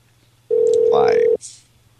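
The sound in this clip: A single steady, mid-pitched ringing tone on a telephone line, lasting under a second, with a voice talking over it and a short breathy noise just after.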